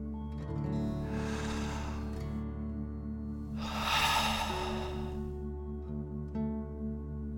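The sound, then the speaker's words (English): A person takes a deep breath in and lets it out through the mouth: two long, airy breath sounds with a pause between, the second louder, over a steady, low, soft musical drone. “Deep breath in and out.”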